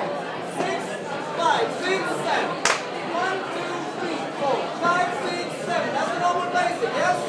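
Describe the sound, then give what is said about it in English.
Background chatter fills a salsa bar on Charing Cross Road where people are dancing salsa: many overlapping voices merge into a steady, busy murmur at moderate loudness throughout. “But they're dancing salsa in the background. We're here in a bar. What's it called? Salsa. Yes. In Charing Cross Road.”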